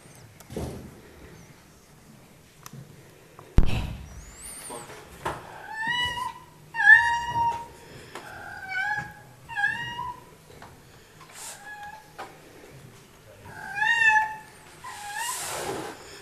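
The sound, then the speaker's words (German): A house cat meows and scolds in a long, irregular series of many short meows that bend in pitch, fairly loud, with a dull knock early on and soft rustles between calls. “Jetzt wollen wir euch ein Video zeigen, warum die Katze unser Urterrorzwerg ist.”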